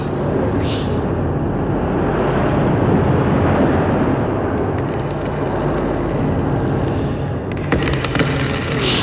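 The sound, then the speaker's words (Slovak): Storm wind roars steadily and loudly around a sailing ship as the sail tears and the mast breaks. The dense rush runs throughout, with brief crackling, splintering bursts near the middle and toward the end. “Plachta sa trhá! Stožiar!”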